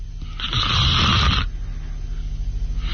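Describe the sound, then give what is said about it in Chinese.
A voice imitates the snoring of a man dozing off while leaning back in a chair: one long, loud rasping snore, then quieter, quick rhythmic snuffling breaths. “他一看窦尔敦靠着椅子把眼闭上，呼噜出来”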